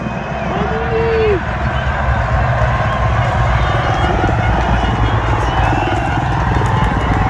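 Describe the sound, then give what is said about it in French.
A crowd of spectators cheers and clamours along a fast cycling race descent. The roar is loud, dense and continuous throughout, a steady wall of many voices with no clear breaks. “On entend la marée humaine. Voilà. La descente est forcément très rapide, hein, mais là on entend vraiment la clameur du public.”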